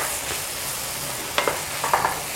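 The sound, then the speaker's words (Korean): Stir-frying food sizzles in a pan as the broth cooks down, a steady hiss with a few short clinks and scrapes of the utensil near the end. “자, 그래서 국물이 줄어들 때까지 좀 많이 볶아주세요.”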